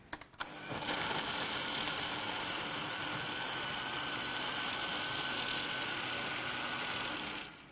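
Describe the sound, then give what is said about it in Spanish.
A blender whirs steadily as it purees a pancake batter enriched with flax seeds into a cream. A few clicks sound as the motor starts, then a loud, even drone holds unbroken until it cuts off at the end. “ahora vamos a tapar la batidora y vamos a encenderla y vamos a batir hasta que quede como una crema.”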